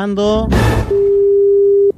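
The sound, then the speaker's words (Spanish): A telephone rings out on a call: after a brief stretch of voices, a single steady, low-pitched ringback tone holds for about a second before stopping. “Ya, perfecto, llamemos. Oh, está llamando, atención,”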